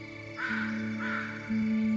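A crow caws twice in a forest: two short, harsh calls separated by a brief pause, fairly quiet over a steady low background tone.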